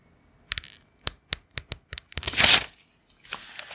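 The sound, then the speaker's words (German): Sheets of paper are torn: several sharp, crisp snaps in quick succession build into one longer, loud rasping rip, followed by a softer rustle. “Achtung, wir machen mal ein bisschen ASMR. Achtung. Oh, Blätter zerreißen.”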